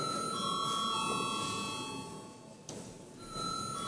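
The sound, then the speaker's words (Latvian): A parliament session bell ringing before a vote: a steady, sustained electric ring that breaks off briefly near the end and then resumes. “lūdzu zvanu.”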